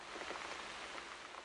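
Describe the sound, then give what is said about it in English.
Raindrops falling steadily in Petersburg make a faint, even hiss of rain on surfaces with no distinct pauses or voices. “who's still trying to get a good survey of the number of raindrops there are in Petersburg today.”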